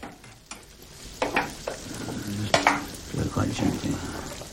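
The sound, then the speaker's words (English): Food sizzles in a pan on a kitchen cooker as it is stirred, a soft steady frying hiss broken by a few scraping, clinking strokes of a utensil against the pan. “In the kitchen, Tessa stands with her father at the cooker.”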